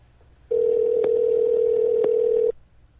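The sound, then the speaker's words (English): Telephone tone as a number is dialled: one loud, steady electronic tone holds for about two seconds, then cuts off to near silence. “dial up Joshua Mazzaroli.”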